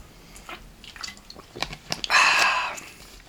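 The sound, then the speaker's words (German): A quick sip of a drink: faint wet mouth clicks and small liquid sounds lead into a short, louder slurping gulp, then quiet. “Ich muss kurz einen Schluck trinken.”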